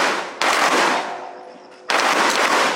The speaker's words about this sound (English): Here, they're firing live bullets from T 91 assault rifles in standing, kneeling, and prone positions.